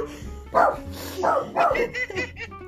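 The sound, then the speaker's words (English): A dog barks and yips in a studio in several short, bright bursts spaced unevenly over a few seconds, fairly loud against a low background hum. “We have a doggo in the studio.”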